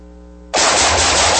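Loud gunfire bursts in abruptly after half a second of low hum, a dense sustained roar of rapid shooting with no separate shots standing out, continuing to the end.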